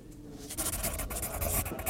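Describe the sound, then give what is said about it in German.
Scratchy rasping of a quill pen dipped in ink and writing on paper, a continuous run of many small, irregular strokes with brief pauses, heard alone without voices. “Cenzo nimmt das Tintenfass, Er greift die Feder, kaut ein wenig, legt Papier vor sich hin und beginnt zu schreiben.”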